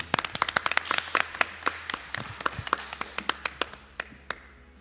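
Applause from a small group: sharp, separate claps in an uneven rhythm, thick at first and thinning toward the end, over a low steady hum.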